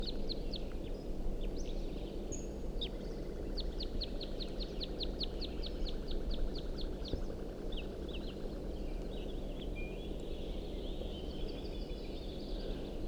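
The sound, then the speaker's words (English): Type 2 crossbills singing and giving flight calls: faint runs of rapid, repeated high chirps, densest in the middle stretch, over a low, steady background rumble. “Quite a few crossbills of visible, some singing, giving flight calls, all type 2s.”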